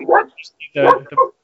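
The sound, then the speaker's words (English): Dog barking from a television commercial: a few short, sharp yelping barks in quick succession, loud and clear. “Lee Lowe's making an appearance, so it must have been a dog on the television. Yeah, I didn't pick it up quick enough. We had a dog on the commercial.”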